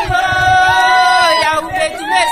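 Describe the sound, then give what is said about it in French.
About twenty women sing a welcoming chant for a delegation in wide fields near Kisantu, their voices blending in sustained, wavering tones that stay loud and continuous throughout. “C'est avec cette mélopée qu'une vingtaine de femmes accueillent la délégation dans une vaste étendue de champs à environ 1 km de Kinkonka, près de Kisantu.”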